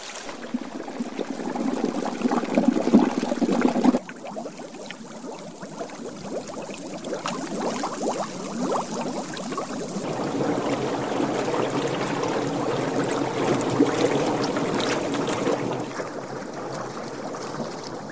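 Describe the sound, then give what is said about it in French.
Strange bubbling rises from volcanic marshes and peat bogs: a steady, watery gurgle of many small pops and burbles that runs throughout without pause, with no voices. “Les bruits sont également différents, des bouillonnements étranges résonnent de tous les côtés.”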